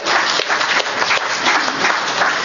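An audience claps hands in a quiz-style show of hands about knowing their state assembly member, a dense, steady burst of applause that holds at an even, loud level for the whole moment without talk.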